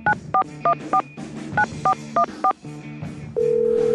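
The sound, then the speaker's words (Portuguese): Telephone keypad tones as an international number is dialed: eight short beeps in two quick groups of four, separated by a pause, followed by a steady continuous tone. “Vamos lá, refazendo aqui todo o processo. Discando aqui. Código internacional.”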